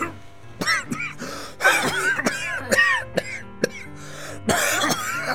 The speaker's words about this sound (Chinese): 邱爸爸没说话，突然偏开头开始咳嗽，咳得很厉害。